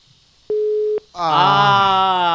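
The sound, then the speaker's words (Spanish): A telephone busy-line tone sounds as a single steady beep of about half a second. A louder, sustained, harmonic-rich sound then follows and continues to the end. “Si la línea está saturada, ustedes vuelvan a llamar”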